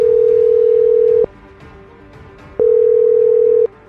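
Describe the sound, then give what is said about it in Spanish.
A telephone tone after a call disconnects: two long, steady, loud single-pitch tones of about a second each, separated by a stretch of faint background noise. “Parece que se desconectó la llamada.”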